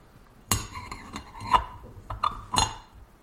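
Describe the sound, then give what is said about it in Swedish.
A lid being set on a teapot just filled with water for tea: a few light clinks and taps with short ringing tones, spread unevenly, with quieter scraping between them and no talk. “Sätter jag på locket på kannan också.”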